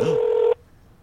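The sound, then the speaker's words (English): Telephone dialing a number: a single steady electronic tone holds for about half a second, then cuts off abruptly into near silence. “Is it dialing?”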